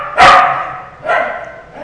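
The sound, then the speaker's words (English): A dog barks twice: a loud, rough bark, then a slightly softer one about a second later, with no talk. “You have no idea how much it kills me to even be in here with him while he's barking.”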